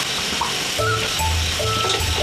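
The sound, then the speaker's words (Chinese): Sour soup and fish going into a cooking pot make a steady, loud sizzling hiss with low bubbling and rumbling underneath, continuous throughout and without talk. “我们都开始把汤开始下锅里面了，它是先放板酸汤，再放我们的鱼”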